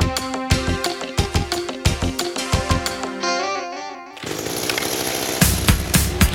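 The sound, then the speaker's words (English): A Master 2000 string trimmer engine cranking up, starting as rhythmic sputtering pulses with a whining tone, then settling into a steady, loud buzzing roar for the last couple of seconds. “Master 2000 string trimmer, cranking up to chow down on the crabgrass growing out of your driveway.”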